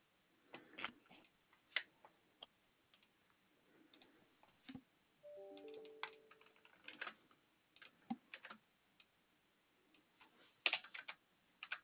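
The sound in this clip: Fingers type on a computer keyboard, producing faint, irregular clicks that come in short bursts separated by pauses, with no talking.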